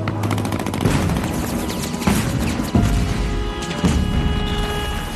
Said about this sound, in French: L'aviation les bombarde sans retenue.